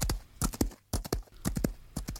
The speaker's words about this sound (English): The monster then tore the saddle from the horse, mounted it, and started off at full speed across the plains.